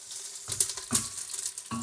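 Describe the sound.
Onions sizzle as they fry in a pan, a steady hiss broken by a few louder scraping bursts from stirring.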